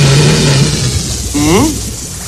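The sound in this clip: A homemade air box buzzes as blown air vibrates a stretched rubber band, whose pitch changes with the band's tension. A steady low drone comes first, then a quieter wavering tone as someone talks.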